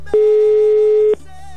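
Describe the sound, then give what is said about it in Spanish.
Ringback tone of an outgoing telephone call: one steady electronic tone lasting about a second, then a quiet pause with faint hum. “Ya está sonando, mi querido Juan, el teléfono de tu tocayo. Venga, que nos tome la llamada.”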